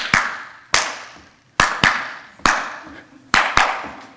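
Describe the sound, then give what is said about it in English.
Sharp hand claps from a band's drummer are tossed into a song as it quiets, loud isolated cracks with short decaying tails, spaced irregularly, some in quick pairs. “he started throwing hand claps while they were singing.”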